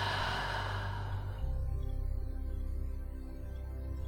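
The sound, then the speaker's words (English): A deep breath taken in and released during a guided relaxation: a breathy rush at the start that fades after about a second and a half, leaving a steady low hum underneath. “Taking a deep breath in and exhale, release.”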